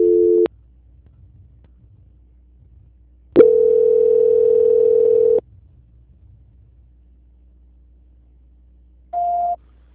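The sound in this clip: Telephone tones during a call transfer: a short tone, then a steady two-second tone, and after a long quiet gap a brief higher beep, all over a faint low hum.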